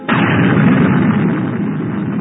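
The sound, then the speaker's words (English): Hydrogen bomb explosion detonated at Enewetak (Aniwetok): a sudden, loud blast onset flows straight into a dense, sustained rumbling roar that holds strong and eases only slightly over about two seconds. “That meant building the hydrogen bomb. The H-bomb was detonated at Aniwetok.”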